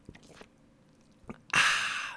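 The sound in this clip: First sip of a freshly opened drink: a few soft mouth clicks, then a loud, sustained slurping sip that carries to the end.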